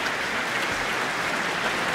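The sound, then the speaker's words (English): A concert audience applauds the Auckland Philharmonia orchestra as the conductor brings the players up for a bow, a steady and even wash of clapping throughout. “Rapturous applause from the audience, who seem very pleased.”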